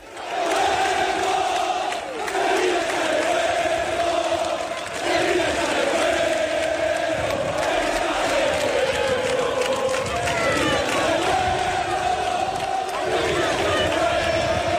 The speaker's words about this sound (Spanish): La afición es consciente de lo difícil que es la situación y por eso se ha conjurado para animar al equipo. Escuchad.